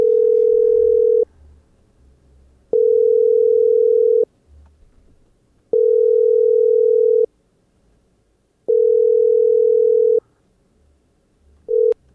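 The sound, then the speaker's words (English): A telephone tone sounds while a call is being placed: a steady, single-pitch, mid-range beep repeats in four even pulses about one and a half seconds long, with a fifth cut short at the end. A faint low rumble fills the gaps. “And let's see if I can get him. Phone signal here on Mustafar is a little wonky. Gets really disrupted pretty quickly. But I think I've got a little something rigged together here that should work.”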